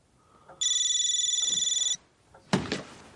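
Mobile phone ringing: a bright, warbling electronic ringtone with a quick pulsing flutter that lasts just over a second and then stops. A dull knock follows soon after.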